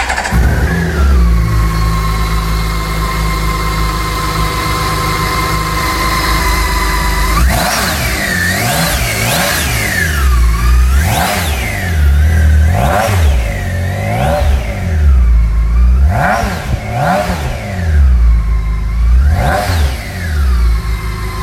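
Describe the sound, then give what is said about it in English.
A six-cylinder K1600 motorcycle engine idles with a steady, smooth hum, then revs repeatedly. Many throttle blips push the pitch up and let it fall back, loud and with no talk. “How many cylinders do you need for such an abundance of power? Does it matter? Ah, the joy of six and the thrill of the K1600.”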